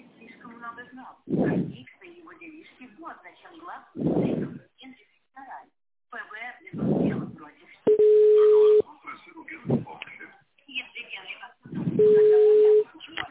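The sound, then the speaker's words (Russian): Telephone tones on a call placed on hold and being transferred: two long, steady, loud beeps, separated by a recorded voice speaking before, between and after them. “Если ваш вопрос не относится ни к одной из указанных категорий, оставайтесь на линии, ваш звонок будет переведен на специалиста.”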